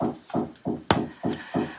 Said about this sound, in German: hier wird gerade im Hintergrund ein bisschen gebaut, deswegen bitte ich das Klopfen zu entschuldigen